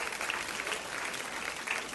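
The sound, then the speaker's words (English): A church audience applauds its ministry volunteers, including the music, worship and ushering teams. The clapping is steady and continuous throughout the two seconds, at moderate loudness. “Come on, can we give them a big hand?”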